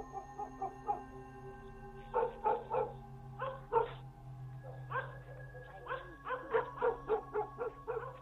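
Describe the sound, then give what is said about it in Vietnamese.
Two dogs bark at night in irregular bursts of sharp barks and higher yips, with short gaps between clusters. A faint, steady low drone sits underneath. “Bỗng nhìn hai con chó, nó lại lên cơn, sủa lên inh ỏi.”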